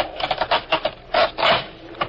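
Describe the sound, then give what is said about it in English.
A wooden floorboard being pried up in a radio drama: many short creaking, rasping strains of wood in a quick uneven rhythm, then two longer groaning pulls, a slightly muffled mid-range sound. “All right, pull that floorboard up all the way.”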